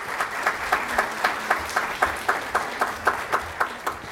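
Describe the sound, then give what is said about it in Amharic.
An audience at a religious teaching gathering applauds, many hands clapping together in a steady, even rhythm of roughly four beats a second that holds at moderate loudness throughout. “አቶ ተፈሪ ነው የሚባለው አንድ ጊዜ አጨብጭቡለት።”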